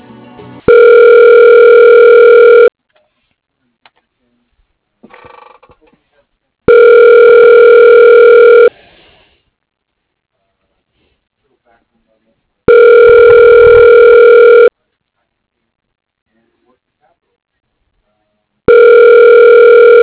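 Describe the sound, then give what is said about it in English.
A telephone ringback tone sounds while a call is transferred to voicemail: three full ring bursts of about two seconds each, evenly spaced with silent gaps, then a fourth burst beginning at the very end. “But I could transfer you to his voicemail if you like. Oh, okay. Yeah, that'd be great. Okay, 1 second.”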